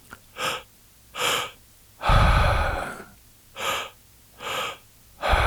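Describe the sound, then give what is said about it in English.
Breathwork inhales drawn through the mouth in two parts, low belly then high chest: pairs of short, sharp breathy gasps alternate with a long, rushing exhale, repeating in a steady rhythm without speech. “the first breath is in the low belly. The second one moves up into the high chest. So it's like one big inhale. And we actually break it apart so it sounds like this.”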